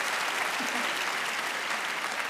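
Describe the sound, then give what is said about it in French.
Audience applause from a live show crowd: steady, dense clapping that holds at an even level for the whole stretch, with no voices over it. “applaudissez ceux qui parmi vous sont fidèles.”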